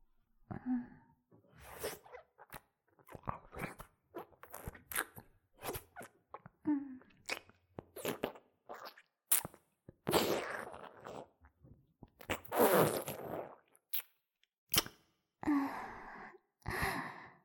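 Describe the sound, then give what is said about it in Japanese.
Wet licking and mouth noises close to the ear in ASMR style: many short, soft smacks, slurps and breathy sounds in an irregular, quiet rhythm. “耳元を舐められるとよーくわかるでしょ。”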